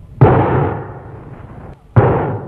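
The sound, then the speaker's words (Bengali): Gunshots in a dramatized scene at a house door: two sharp, loud bangs nearly two seconds apart, each trailing off in a long, noisy decay, with no voices. “কি হলো? কে কারে গুলি করলো?”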